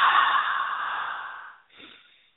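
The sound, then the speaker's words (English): A person exhales slowly during a guided breathing exercise: a long airy hiss that gradually fades over about a second and a half, then a shorter, softer breath follows. “Let's breathe. And release.”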